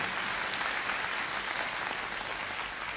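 Soft audience applause after a line about marriage is praised. Even, continuous clapping runs at low volume for a few seconds and shows no break.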